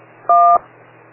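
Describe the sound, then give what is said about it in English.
A single DTMF tone for the digit 1, as heard over amateur radio from an autopatch dialing pad: a steady two-pitched beep lasting about a quarter second over a faint low hum. “You hear a DTMF 1. It's the same one as is on your auto patch dialing pad.”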